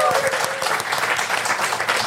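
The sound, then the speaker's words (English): An audience at a local council talk on walking and cycling gives a round of applause. Many hands clap in a dense, continuous wash that stays at an even loudness from start to finish. “Round of applause.”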